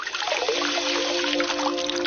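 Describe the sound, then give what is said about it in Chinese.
Warm water poured steadily into a bowl of dried safflower, a continuous trickling, splashing stream that holds an even level throughout, with no voices. “随着温水的加入，红花的香味开始逐渐溢出”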